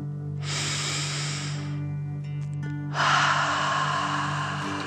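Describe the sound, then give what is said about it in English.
Deep dragon-breath exercise, breathing in and out: two long, airy breaths, the second slightly louder, flow over a steady low hum that continues underneath throughout. “Let them settle down into the grass and breathe like a dragon, in and out.”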